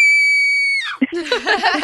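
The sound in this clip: A woman screams in one long, steady, high-pitched note that slides slightly lower before cutting off, followed by shorter, broken vocal sounds.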